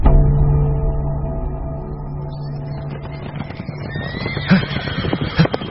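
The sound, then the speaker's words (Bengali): A horse whinnies while hooves clop and thud in a loose, irregular rhythm, the hoof beats growing busier and louder toward the end. “ঘোড়া ছুটিয়ে ক্যাম্পের দিকে ফেরত চললাম”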